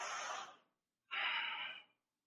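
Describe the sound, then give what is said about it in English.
Two deep, airy breaths come one after the other, separated by a short pause. They are heard alone, with no other sound. “We're going to breathe through that moment.”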